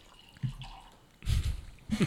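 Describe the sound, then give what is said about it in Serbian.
Late harvest wine pours and splashes into a glass in three short liquid bursts separated by quiet gaps, the last two louder than the first. “Sipaj ovde. Dobro. Evo, sipao sam.”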